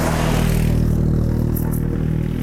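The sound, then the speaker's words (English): A four-wheeler ATV drives by in the Rocky Mountains, its mid-pitched engine holding a steady, rough drone with a clattering edge throughout, heard alone without talk. “Sorry, there's a four-wheeler driving by.”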